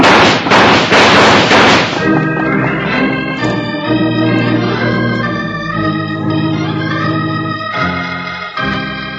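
Gunfire in a western shootout: a rapid burst of loud, sharp cracks fills the first two seconds, then sustained music takes over.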